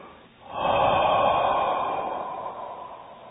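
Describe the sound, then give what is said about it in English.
A long, slow exhale pushed out through the mouth with a little force: a single sustained, breathy rush of air that starts suddenly and tapers gently over about three seconds. “exhale from the mouth, long, slow, little bit, you know, little force.”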